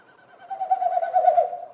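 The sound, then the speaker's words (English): Male Wilson's snipe winnowing in its spring courtship flight, air forced through stiff outer tail feathers with each wingbeat; a soft, hollow, rapidly pulsing hoot that builds in loudness and then fades, heard alone. “male Wilson snipe do this time of the year in the spring, they do this flight, these winnowing flights is what they're called. So each time they flap their wings, it pushes air through the stiff outer tail feathers”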